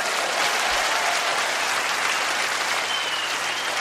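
Audience applause fills the whole stretch as a dense, steady wash of clapping, evenly loud from start to finish with no voices over it.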